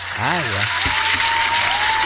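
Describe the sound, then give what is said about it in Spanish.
Sustained audience applause, a continuous wash of clapping that runs through the whole two seconds, with a man's voice talking over it at the start. “Perdón que hable arriba de los aplausos.”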